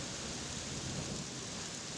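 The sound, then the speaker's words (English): Rain falling on a Thursday in Prague, a soft, continuous hiss that stays even and faint from start to finish, with no voices. “It's a Thursday, and it's raining in Prague.”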